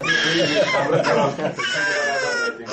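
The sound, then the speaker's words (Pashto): A child cries during a polio vaccination in Farah city, a loud, high, wavering wail with rising and falling sobs that breaks off briefly and resumes. “دا د پولیو واکسین پر مهال د هغه ماشوم د جړا آواز دی چې هر دوره د فراه ښار کې د زرګونو نورو ماشومانو په ګډون د پولیو پر وړاندې واکسینېږي.”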